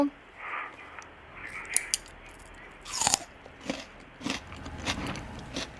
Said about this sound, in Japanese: まずじゃあ大根につけて食べてみようかな。